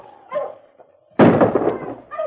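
A single loud gunshot on a snow-covered trail, a sudden sharp burst with a short decaying tail, with brief fainter sounds just before and after it.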